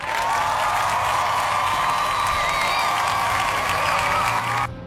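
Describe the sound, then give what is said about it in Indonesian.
Sustained audience applause with some cheering, a thick, loud wash over a held musical tone that cuts off abruptly just before the end. “Kita kasih tepuk tangan nih buat 57% orang yang ikutan pilih ya.”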